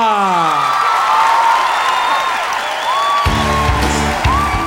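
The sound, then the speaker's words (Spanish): A crowd in Miami roars with cheers, high whoops, whistles and applause for the band Fuga, and band music kicks in beneath the cheering near the end. “Un fuerte aplauso para la nueva sensación de Miami, el grupo Fuga!”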